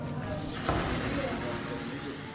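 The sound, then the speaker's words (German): Steady hiss of a chalk spray can spraying onto a wall. A broad, airy rush starts shortly after the beginning and lasts through nearly the whole clip at an even level. “mit Kreidesprays ihre eigenen Namen an die Wand sprühen”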